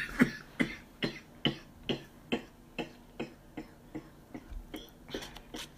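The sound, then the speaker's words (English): Coughing from someone choking on pepper stuck in the throat: a long run of many short, sharp coughs at a fairly even, steady rhythm, with no talk over them. “I'm over here choking on some actual pepper in my throat.”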